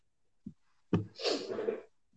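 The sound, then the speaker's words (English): A person sneezes once, loudly: a brief soft breath comes first, then the sharp burst of the sneeze and a rough, breathy trail. No one speaks. “Oh, I sneezed. That was horrible.”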